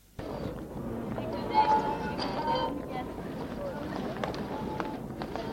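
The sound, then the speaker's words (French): A man's footsteps sound on a deserted street on a March Sunday morning as he walks home, a run of irregular, crisp taps over a faint low background. “Les rues sont encore désertes, l'on n'entend que le bruit de ses pas.”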